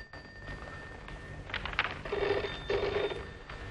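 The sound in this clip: A home telephone rings in a few bright, trilling bursts that sit over a low, steady background hum.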